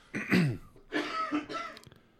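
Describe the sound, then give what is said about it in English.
A few rough, raspy coughs come in short bursts with brief pauses between them, and the last one tapers off into faint throat noise. “we're both coughing today”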